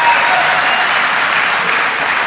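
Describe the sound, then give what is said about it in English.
Audience applause for a performer on stage: a loud, dense wash of clapping that stays steady throughout, with a dull, muffled top end. “Basically, you're applauding severe drug abuse, right?”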